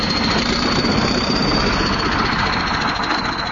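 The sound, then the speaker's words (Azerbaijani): A tractor engine drones steadily as it crushes and flattens mounds of garbage dumped by trucks at a landfill, a loud, continuous rumble with grinding noise throughout and no voices. “Yük maşınlarından boşaldılan zibillərdən əmələ gəlmiş təpəcikləri traktorlar əzib hamarlayır.”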